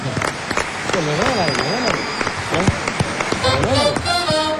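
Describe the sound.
Applause runs as steady, dense clapping through the whole stretch, with people talking over it.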